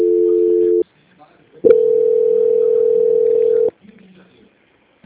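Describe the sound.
Telephone line tones during a call transfer: a steady two-note tone cuts off, then after a brief gap a single steady tone holds for about two seconds before stopping, leaving only faint low noise.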